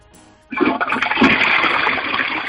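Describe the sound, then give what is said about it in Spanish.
A toilet cistern flushes, starting abruptly after a brief quiet moment and continuing as a loud, steady rush of water to the end. “te va bien lo que es la descarga de la cisterna. Te va estupendo.”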